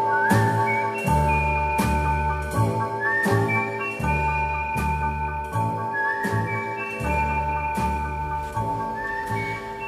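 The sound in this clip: Whistled tune, a clear melody of sustained notes over a steady musical accompaniment with regular beats throughout.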